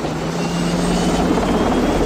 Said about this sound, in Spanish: El helicóptero se aleja.